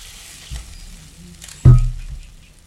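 Hot caramel is poured into a saucepan. A soft thump comes first, then a sudden loud burst of sizzling that quickly fades to a quieter hiss.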